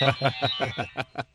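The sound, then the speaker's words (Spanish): Rapid electronic ringing from a bell ringer fitted to a device: a steady, even series of about seven short, bright pulses in quick succession, fairly loud, with no talk over it. “que le puse un timbre a esto”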